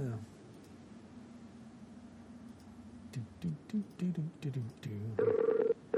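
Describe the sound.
A ringing tone on an outgoing Skype online call comes in near the end as one short, warbling, steady-pitched burst. It follows several seconds of people talking.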